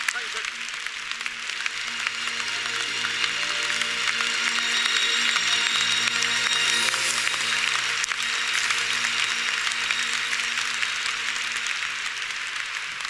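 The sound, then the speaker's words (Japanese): A church audience claps together in praise: a dense, steady wash of applause that holds at an even level for the whole stretch, with a faint low tonal hum running beneath it. “大きな拍手を持って神様に栄光を返しましょう。”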